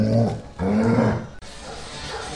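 A dog gives two long, rough, drawn-out vocal bursts, loud and growly rather than short barks, then a quieter noisy stretch follows.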